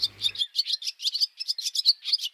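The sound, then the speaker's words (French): Small birds chirp in quick, high-pitched tweets, many short calls tumbling over one another in an uneven rhythm with no talking. “il y a des petits oiseaux. Si on allait les observer.”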